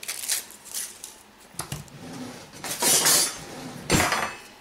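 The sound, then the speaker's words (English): Metal cutlery clinks and clatters as a knife is fetched to cut a Crisco shortening stick for cream gravy. A few sharp metallic bursts and scrapes come in quick succession, with no talking. “Let me get my knife and I'll show you the easy way to do it.”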